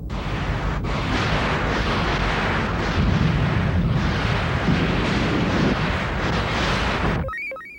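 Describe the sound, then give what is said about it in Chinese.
A warship's cannon barrage in a sci-fi space battle, fired to stop an approaching swarm: a dense, unbroken roar of rapid blasts and booms at high volume that cuts off abruptly, followed by a brief electronic blip. “只好炮击了，张开弹幕阻止击雷群接近。”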